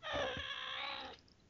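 A pet cat gives a faint, drawn-out meow while being petted, which she dislikes. It is a single tonal cry of about a second that ends abruptly.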